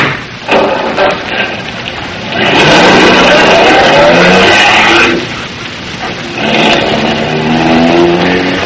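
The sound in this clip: Car driving off: loud, rushing engine and road noise that swells into two long surges separated by a quieter dip, with no voices.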